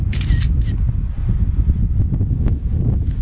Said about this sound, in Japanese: 写真撮っていこう。